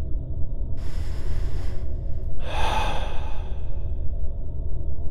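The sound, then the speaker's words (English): A deep breath drawn in through the nose, then let out slowly through the mouth: a soft airy intake of about a second, followed by a louder breathy exhale that gradually fades, over a low steady background. “Breathe in deeply through your nose and breathe out slowly through your mouth.”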